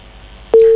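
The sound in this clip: A telephone busy tone after a call line disconnects: a single steady, mid-pitched tone that cuts in abruptly after faint line hiss.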